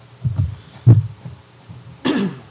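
Coughing from a player at a tabletop role-playing game session: a few muffled, low coughs, then one sharper, rougher cough near the end, with no talk.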